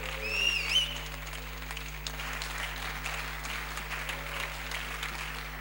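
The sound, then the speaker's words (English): A church audience applauds to welcome a preacher as a standing ovation, with dense, steady clapping that runs the whole way through at an even level. “Church, with a standing ovation and a hand, let's welcome Reverend Raphael Owusu-Entry as he brings the word of God to us this morning.”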